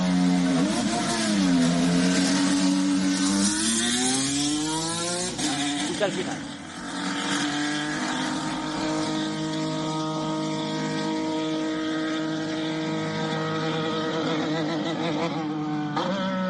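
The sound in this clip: Alpine Formula 1 car engine on a circuit, a loud, high-pitched racing whine whose pitch climbs twice early on, then holds steady and sustained to the end, with a voice speaking briefly.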